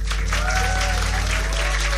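Audience applause for a band after a live performance at a concert venue. A dense, steady clatter of clapping fills the whole clip at an even, loud level.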